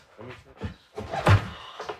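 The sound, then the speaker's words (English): A kitchen trap door hatch to the basement being opened: a single heavy thump near the middle, with softer knocks and rustling movement before and after it. “Okay, we've got the hatch open.”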